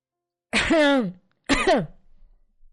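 A woman clears her throat twice: two short, rough, raspy bursts separated by a brief pause, heard alone without speech.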